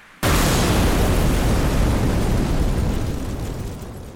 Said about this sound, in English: When the building explodes, it sends wave-like ripples under her shoes.